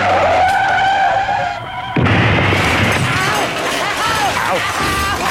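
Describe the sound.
A car drives off with its engine revving, then a loud, harsh screech of skidding tires bursts in and carries on to the end.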